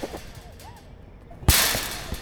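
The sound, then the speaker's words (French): A ball strikes a wire mesh fence in a single sharp, loud smack after a quiet stretch, followed by a bright metallic rattle that fades over most of a second. “Un ballon qui tape sur un grillage.”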